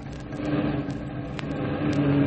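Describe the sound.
A staff car's engine bogs down on a road of water-filled ruts as the driver shifts into low gear. It gives a steady, heavy, labouring drone that stays loud throughout, with no voices.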